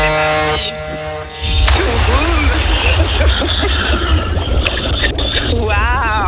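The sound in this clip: A person diving into the sea off Guadeloupe to fetch a package, a sudden burst of water noise followed by continuous bubbling and sloshing, coming after a short tonal passage.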